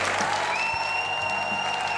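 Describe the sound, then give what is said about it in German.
Premiere audience at an amateur theatre comedy applauding: thick, continuous clapping with a long, high whistle sustained over it. “Zum großen Vergnügen und viel Applaus des Premierenpublikums.”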